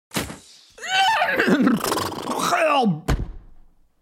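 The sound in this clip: A crossbow bolt strikes an old pony in the head with a dull thunk, then a drawn-out, groaning whinny wavers and falls in pitch before a second heavy thud ends it.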